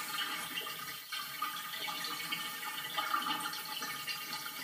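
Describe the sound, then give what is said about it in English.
Water going down a drain makes a steady, faint rushing and gurgling wash that stays even throughout. “It's going down the drain. It's going down the drain.”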